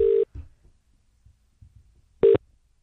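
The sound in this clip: Telephone line tones sound while a caller dials a directory-assistance number: two short, loud, steady mid-pitched beeps separated by a long gap, with faint low thumps in between.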